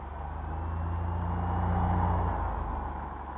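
A car engine runs with a low, steady hum that swells slightly in the middle and settles again. No voices are heard.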